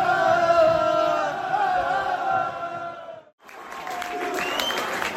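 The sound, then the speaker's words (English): Football crowd, the Amber Army supporters, cheering and shouting at kick-off in a loud, sustained roar that cuts off briefly before the noise surges back. “Ready to kick off the Amber Army in proper loud voices here.”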